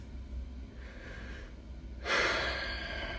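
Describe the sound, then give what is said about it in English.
A deep breath with a soft inhale, a brief pause, then a louder, long airy exhale that slowly fades, heard alone without talk. “That moment of breath. As a matter of fact, we do that around here. We take a moment to breathe.”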